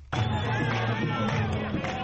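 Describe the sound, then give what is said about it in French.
A jubilant Palestinian crowd massed at the entrance of the Al-Aqsa esplanade in Jerusalem raises a loud, sustained roar of many voices that starts abruptly and carries on steadily throughout. “Une foule en liesse s'est massée à l'entrée de l'esplanade des mosquées après l'annonce de la nouvelle.”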